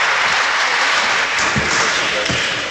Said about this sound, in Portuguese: De pé, também nas galerias, forte aplauso para os capitães de Abril.